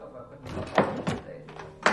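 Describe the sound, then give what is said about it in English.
A drawer shut in a hurry gives a few quick wooden thunks and scrapes at moderate loudness. The knocks are spaced unevenly over a quiet background. “He hurriedly closes the drawer, hides behind the desk.”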